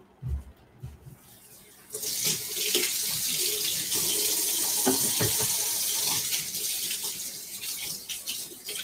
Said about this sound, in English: Just gonna wash my hands really quick.